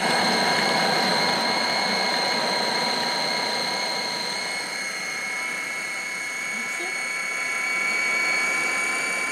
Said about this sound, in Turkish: Şu makine bak hayatımı kurtardı. Gemidekiler gibi oldum. Altı bıçaklı, çelik. Bakır motor. Bak.